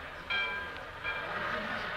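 A train at a railway station, a quiet, steady rumble with sustained tonal whining running through it.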